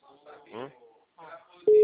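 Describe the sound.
A telephone call tone is heard while dialing, a loud, steady single-pitched tone that starts abruptly at the very end after a few moments of talking.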